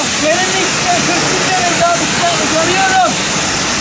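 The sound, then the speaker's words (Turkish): Pressurized water spray at a car wash, with a person standing under the jet to cool off, gives a steady, loud hissing rush. The spray runs without a break, and faint voices may sit underneath it. “Yoğun iç temposu nedeniyle denize gitme fırsatı bulamayan bir vatandaş çözümü oto yıkamacıda buldu. Tazikli suyun altına girerek serinlemeye çalıştı.”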